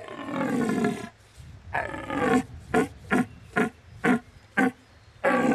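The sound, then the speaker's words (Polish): A stag roars during the autumn deer rut. One long, hoarse bellow is followed by several short, grunting roars in a fairly regular rhythm, and another drawn-out roar closes the sequence. “Rykowisko zaczyna się wraz z nastaniem jesieni. Zaczynają się chłodne poranki i w ten czas słychać te właśnie dobiegające głosy. Często mylone z głosem niedźwiedzia,”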